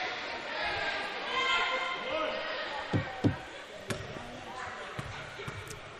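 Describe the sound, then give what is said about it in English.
A missed basketball free throw in a fourth-quarter game spins out of the rim, followed by a few sharp thuds of the ball against the rim and floor, with talk throughout. “First one on its way, and that one spins out of the rim.”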